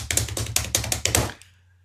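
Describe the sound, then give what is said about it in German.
An improvised drum roll tapped out as a quick run of sharp, dry knocks on a hard surface, evenly paced, lasting just over a second before stopping. “Trommelwirbel? Da, äh, Trommelwirbel?”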